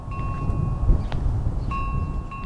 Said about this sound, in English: A gentle wind blows through Gene Purdom's quiet farm near Williamston.